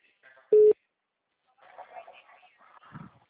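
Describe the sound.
A single loud, steady telephone tone beep, a busy signal after a dropped call, sounds briefly before a person speaks.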